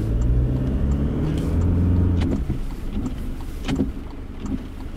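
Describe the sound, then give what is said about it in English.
Heavy rain and car windscreen wipers sweeping across the glass, recorded with the microphone close to the windscreen. A dense, steady wash of rain and low road rumble carries a few soft wiper swishes. “You can hear the wipers working overtime because of the proximity of the microphone to the windscreen.”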